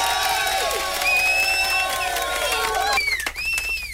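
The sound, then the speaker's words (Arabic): An audience applauds and cheers for contestants, a steady wash of crowd noise with tonal sounds riding over it throughout. “ونسقف للناس الحلوه الشطاره.”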